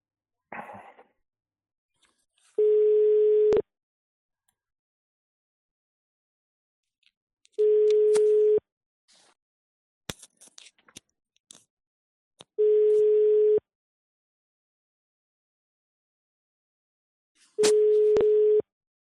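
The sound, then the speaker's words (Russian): An outgoing phone call rings with no answer. Four long, steady ringback tones repeat at even intervals, with silence and a few faint clicks in between. “Ладно, давайте звоню, еще пару номеров осталось, ребята, сегодня.”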